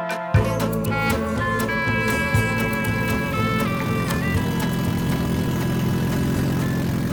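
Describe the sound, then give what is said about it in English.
Loud, throaty roar of a car engine running without a catalytic converter, with a failing exhaust system. A rough, steady drone runs for about seven seconds, broken by scattered sharp crackles. “that sounds like a car where the exhaust system has gone bad one way or another. That's right. That is the lovely roar of a car without a catalytic converter.”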